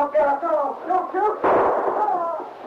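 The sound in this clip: A gunshot rings out in a drama scene, fired at a man standing at the head of a staircase. Voices come first, then a single loud, sharp blast cuts in partway through, followed by a rough noisy tail.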